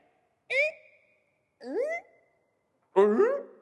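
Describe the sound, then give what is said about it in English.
A dog whines in three short, tonal yelps with bending pitch, evenly spaced and clear against silence, with no talk. “Sorry, that was the dog.”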